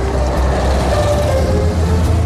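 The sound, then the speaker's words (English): Street traffic beside a bus station, a continuous low engine rumble with a dense wash of road noise that stays loud and steady throughout, without distinct passing events. “Alexander and Stuart are walking along the street, both carrying boxes. They reach a bus station.”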